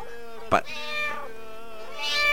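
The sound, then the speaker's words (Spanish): A cat meows near pigeons: a drawn-out, tonal meow after a brief sharp knock, with a higher cry near the end. “ahí viene el gato”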